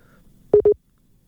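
A telephone busy tone as a call-in caller's line cuts off: two short, steady low beeps of equal length, then silence.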